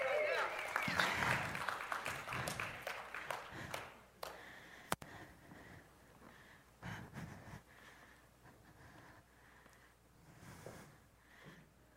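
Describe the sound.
Church audience applause welcoming three guests to the stage, a dense wash of clapping that swells in the first few seconds and then thins out as voices talk over it.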